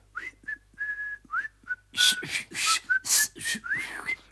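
A person whistles a short, lilting tune of quick notes and sliding pitches, soft at first and then louder and brighter in the second half.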